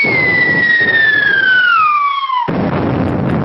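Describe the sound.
A bombs-dropping sound effect: a loud whistle glides steadily downward in pitch, then breaks off into a sudden, sustained explosive rumble.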